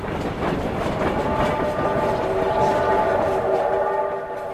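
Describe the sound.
A train pulling in at a station platform gives a steady, loud rumbling rush with sustained whining tones running through it, holding fairly even across the whole stretch.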